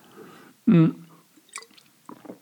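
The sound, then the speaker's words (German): A person takes a sip of a drink: one short, loud slurping gulp, followed by faint small mouth and liquid sounds. “Oh, ich muss mal einen Schluck trinken.”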